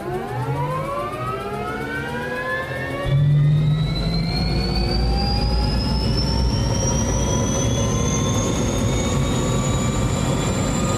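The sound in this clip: A helicopter turbine engine starts up automatically. Its thin whine climbs steadily in pitch the whole time, and a louder, deeper roar joins early on and holds beneath the rising tone.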